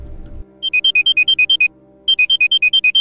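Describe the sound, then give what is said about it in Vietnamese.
Mobile phone ringing with an electronic ringtone of rapid warbling two-note beeps in two bursts separated by a short pause, after a brief low rumble at the start. “Khi không còn sức để khóc nữa thì chuông điện thoại của cô bỗng reo lên.”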